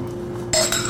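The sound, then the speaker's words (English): A spoon clinks against a jar while someone eats peanut butter and jelly straight from it: two bright, short clinks about a fifth of a second apart over a low steady hum. “I'm eating it straight out of the jar with a spoon. And then dipping it in the peanut butter.”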